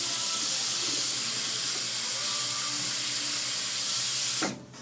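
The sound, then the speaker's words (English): Water running from a sensor-activated tap at a sink as hands are washed, a steady, even hiss that cuts off abruptly just before the end. “So, okay, there it goes. Now, let me just wash my hands.”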